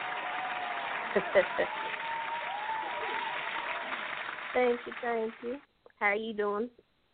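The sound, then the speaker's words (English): Audience clapping for a caller on a live call-in show: a dense, steady patter of many hands for about four seconds, then it drops away and people talk. “Let's go ahead and throw some claps on it for you.”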